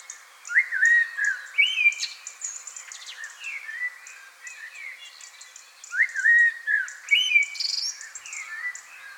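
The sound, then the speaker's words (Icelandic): Blackbird song in two bursts of fluting, warbled phrases mixed with higher twittering notes, separated by a quieter stretch of softer calls; clear and mid-to-high pitched, with no voices. “Heyrum í svartþresti til samanburðar.”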